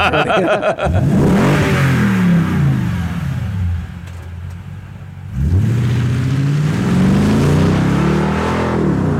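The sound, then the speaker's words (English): A car with a Borla Touring exhaust, its least aggressive setting, revs loudly twice. Each rev climbs sharply in pitch and then winds back down, and the engine settles to a lower drone between the two bursts. “right, and now this is the Borla Touring exhaust.”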